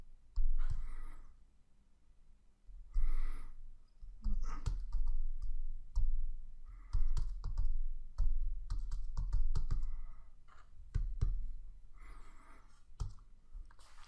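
Typing of code on a computer keyboard, entering an HTML heading, comes as bursts of sharp, quick clicks separated by short pauses, with no talk over it.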